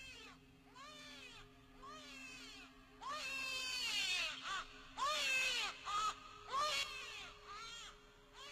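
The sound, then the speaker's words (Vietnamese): A baby cries at night in a series of loud, wavering wails that rise and fall in several separate bursts, over a faint steady hum. “tiếng gõ cửa và tiếng trẻ con khóc lại vang lên trong”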